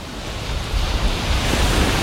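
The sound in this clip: Waves washing onto a beach in a continuous, rumbling wash of water with a low, wind-like rush beneath it, swelling a little louder after the first moment and staying strong, with no talking.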